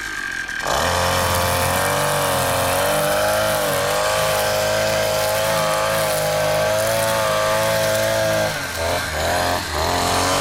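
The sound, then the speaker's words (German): Loud, steady engine drone of a mower cutting the last blades of grass. It starts abruptly after a brief pause and holds a nearly constant pitch with slight wavering and a short stutter near the end; no voices. “die letzten Grashalme zu mähen. Hörschutz, Brille und los geht's.”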